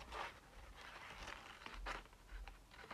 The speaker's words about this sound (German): So, jetzt schneide ich dieses verdammte Loch aus.